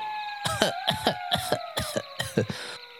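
A dry, hacking cough breaking the quiet of the night, heard alone as a rapid series of short, sharp bursts of moderate loudness.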